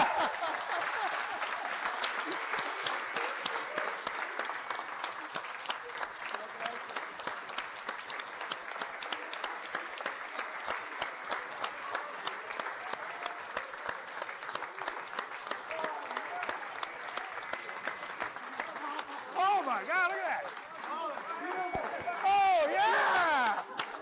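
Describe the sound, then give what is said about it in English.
Crowd applause erupts as a team hears a confirmation, a dense, sustained patter of many hands clapping throughout, with voices mixed in and the clapping swelling louder near the end. “It's just erupted in applause.”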